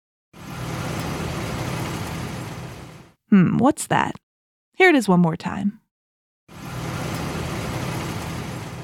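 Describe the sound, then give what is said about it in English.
Engine rumble of a combine harvester on a farm, a steady low drone heard in two long stretches with a person talking briefly between them. “A combine. A combine.”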